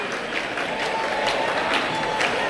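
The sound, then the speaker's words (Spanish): A concert crowd applauds and cheers in a dense, steady roar of clapping and voices, calling for the singer to perform another song. “Vamos a escuchar cómo comenzaba. Mira cómo están pidiéndole otra.”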